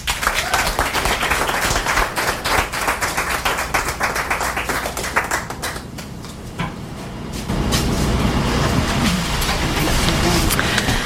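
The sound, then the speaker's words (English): Audience applause at a live event: dense, continuous clapping from many hands, dipping slightly midway, then swelling again and holding steady to the end. “Let's give Malcolm another hand and bring up Vicky Langelier.”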